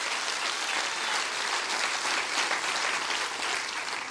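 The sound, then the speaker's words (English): A church audience claps their hands together in a steady, dense wash of applause that holds at an even level from start to finish, with no voices standing out. “Come on, clap your hands real big for that.”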